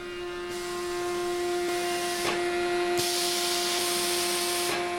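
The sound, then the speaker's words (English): Industrial pumps at a commercial bread bakery suck ingredients into mixing bowls, making a steady, loud hiss over a constant tonal hum that shifts in level a few times. “Dave's Killer Bread in Milwaukee, where pumps suck 2,000 pounds of ingredients into mixing bowls.”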